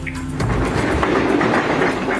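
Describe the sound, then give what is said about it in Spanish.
A train runs on rails with a loud, continuous rumble and a rhythmic clatter of wheels over the track, with no voices. “Ahí está el tren.”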